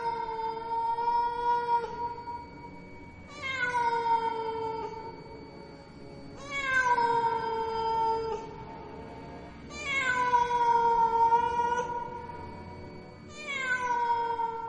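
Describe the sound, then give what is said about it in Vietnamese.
Eerie cat yowling, five long, drawn-out wailing cries at a steady pace. Each cry starts high and slides downward in pitch, fairly faint and alone with no voices. “Nó kêu lên những tiếng vô cùng thảm thiết, tiếng mèo kêu nghe ghê rợn hết cả người, truyền khắp trong tai của tất cả mọi người.”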